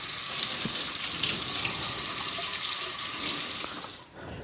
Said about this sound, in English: Okay. I'm going to wash the oil off my hands.